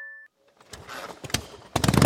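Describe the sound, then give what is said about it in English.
A motorcycle engine with loud pipes revs hard after a short electronic beep. The throttle is blipped in several rough bursts, and the engine builds to a loud, ragged roar at the end. “Can your bike bring the thunder? Join Appleton for our famous Loud Pipes contest.”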